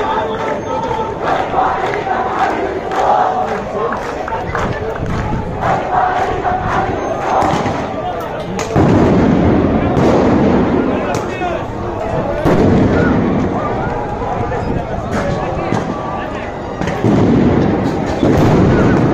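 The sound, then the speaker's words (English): Police stun grenades burst with sharp, loud bangs among protesters at Damascus Gate in East Jerusalem, set against continuous crowd shouting and noise. Several blasts punctuate the din, with a heavy surge around the midpoint. “So what you saw there was a peaceful protest and then the Israeli police throwing stun grenades at protesters.”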